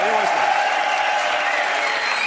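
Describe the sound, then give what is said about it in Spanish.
Audience applause: steady clapping from a studio crowd that fills the whole clip at an even level, with a voice briefly audible at the start. “Un aplauso para Antonio Resines.”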